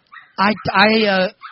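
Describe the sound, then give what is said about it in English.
Dogs making noise: short, tonal whining or yelping cries, then a longer, steady, drawn-out one, fairly loud, with a faint cry at the end. “Are the dogs eating each other there? I don't know. That freaking dog. They always got to ruin my goddamn stories.”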